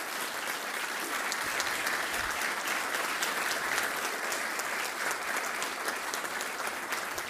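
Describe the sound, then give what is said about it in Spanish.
An audience applauds at a formal event about the 2023 national census, dense steady clapping that fills the whole stretch with no talk over it. “Bueno, otro aplauso naturalmente, porque la verdad,”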